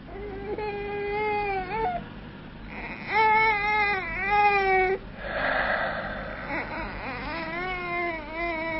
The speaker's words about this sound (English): Another baby. Crying, wailing, saying, make way, make way.